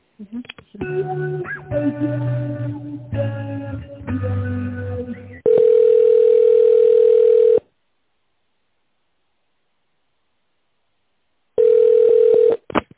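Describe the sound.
Telephone ringback tone plays while an office call is transferred to a colleague: two long, steady, mid-pitched tones separated by several seconds of silence.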